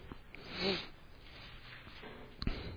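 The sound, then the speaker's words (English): Bible pages rustling as a church audience turns to a chapter: soft, continuous papery swishing that swells once early on and ends with a brief, crisp flick. The sound is faint and no one talks. “My favorite sound in church is the rustling of pages. That's how I know God is moving.”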